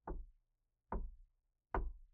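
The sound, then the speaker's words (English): A knock at the door comes as three dull, low thuds, evenly spaced with clear gaps between them, fairly soft and with nothing else heard. “there's a knock at the door.”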